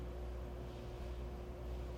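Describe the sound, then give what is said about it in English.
Cars driving by on a street beside a bike lane give a faint, continuous low rumble with a steady hum, unbroken by distinct pass-bys. “Cars drive by a bike lane in slow motion. Two people bike along a sidewalk as cars drive by.”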